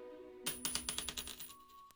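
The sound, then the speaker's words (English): A flipped coin lands and bounces, making a faint run of many ringing metallic clinks. The clinks come closer together and fade as the coin settles. “Heads yes, tails no. All right, here we go.”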